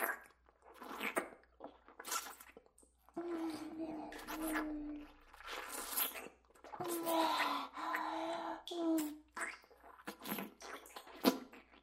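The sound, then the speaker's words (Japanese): Wet licking and mouth sounds on someone's back in an intimate roleplay, soft and close, broken by breathy sighs and quiet murmured vocal sounds. “スチアがお口できれいにするの。背中、舐めさせていただきますね。”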